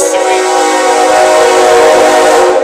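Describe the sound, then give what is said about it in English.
A train horn blares loud and steady over the rumble of a passing train, holding a sustained tone from start to finish. “The train is here”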